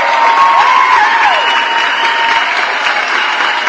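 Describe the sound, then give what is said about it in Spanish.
Loud, steady applause sounding at the close of a greeting segment on a debt-advice program, a continuous hiss of clapping with thin whistle-like tones gliding over it and one tone sliding downward partway through. “un aplauso por supuesto”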